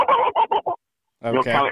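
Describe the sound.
A human voice imitates the broken-up gobble of a Rio Grande wild turkey: four quick clipped syllables, a pause, then a longer rolling, honking burst.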